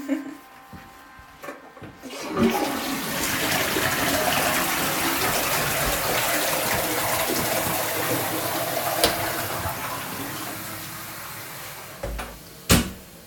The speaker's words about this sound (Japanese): では流します。